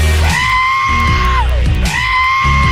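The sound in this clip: A goat's scream is edited into a pop song in place of a sung note. Two long, loud, bleating cries hold a steady pitch over the music, and the first slides downward as it ends.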